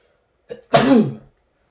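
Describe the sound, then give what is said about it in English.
A single sneeze: a brief soft catch of breath, then a loud voiced burst that tails off over about half a second, heard alone without speech. “If I sneeze more than twice, it means it's going to be a lot of them, so let's see if I can get through this.”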